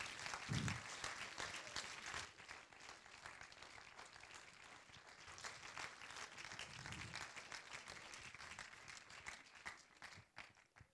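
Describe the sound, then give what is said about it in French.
An audience applauds a guest at an evening event with steady, quiet clapping that carries on for about ten seconds before tapering off at the end. “je voudrais vous demander d'applaudir Nicolas Bras”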